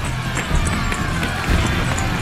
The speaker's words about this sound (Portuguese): Parece que há gente a correr.